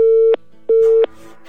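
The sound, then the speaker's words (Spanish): Telephone busy tone on a dropped live call: two steady, evenly spaced beeps separated by a short silence, followed by faint background noise. “Se cortó la llamada”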